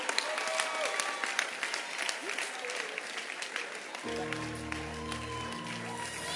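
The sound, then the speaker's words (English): A church audience claps hands in a dense, steady patter of applause, fairly soft and continuous for over six seconds, with a voice speaking over the clapping in the later part. “Clap your hands for them. They are coming. Keep clapping for them.”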